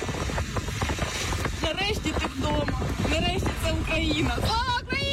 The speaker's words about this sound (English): What you're hearing is a car driving in the village of Borova.